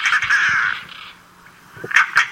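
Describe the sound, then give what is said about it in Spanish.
A European roller calls on the La Mancha plain with a harsh, rasping, rattle-like note, followed after a short pause by a few brief harsh notes. “Y aquí escuchamos su cántico, el porqué de Carraca, ¿no? Porque se asemeja a este instrumento que se utilizaba.”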